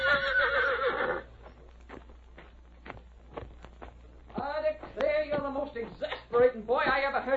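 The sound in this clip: A horse named Blackie gives a shrill, wavering whinny at the start, followed by a stretch of sharp, sparse clicks, then further voiced sounds and people talking.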